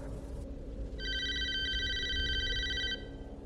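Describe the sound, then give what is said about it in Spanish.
A telephone ringtone sounds at a computer desk where calls are answered by headset: a bright, buzzing electronic ring holds for about two seconds over a low steady background hum. “volví a escuchar el tono de llamada”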